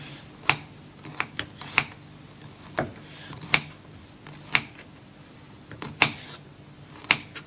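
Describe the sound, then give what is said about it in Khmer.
A knife cuts tofu into small pieces, giving many sharp, brief taps at an irregular pace, some close together and others spaced apart, against a quiet background. “កាត់តៅហ៊ូចឹងតៅហ៊ូនេះគឺយើងចង់កាត់វាជាដុំទូចទូច”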